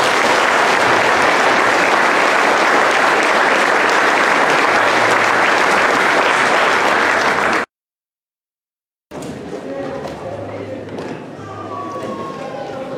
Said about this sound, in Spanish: un fuerte aplauso pues para ellas